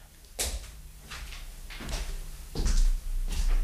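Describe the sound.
A door opens as someone comes in: faint, soft thumps and knocks with rustling between them, and no talk.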